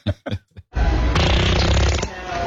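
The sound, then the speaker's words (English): A fart sound played back from a recording: after a few short sounds, one long, loud, rough sputtering blast runs steadily to the end. “That wasn't a real fart sound, was it? That couldn't have been. Play it again, play it again. She was like, she's like 8 feet away, and it sounds like that fart is in my head.”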